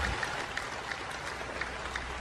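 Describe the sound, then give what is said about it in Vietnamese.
An audience applauds a woman at an evening gathering, a dense, steady patter of clapping that holds at an even level throughout, with no voices standing out. “Tiếng cười rộ lên và họ vỗ tay hoan nghênh bà.”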